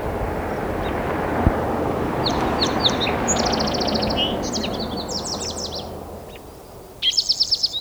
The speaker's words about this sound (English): Song Sparrow.